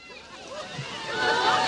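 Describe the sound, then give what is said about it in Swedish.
Water sloshing and splashing as a man who has plunged into a cold fountain floats on his back and paddles about, a churning wash that swells louder toward the end, with indistinct voices mixed in. “Ja, direkt i plurret. Och inte var han feg heller, utan han lagt sig på rygg och skvalpar omkring.”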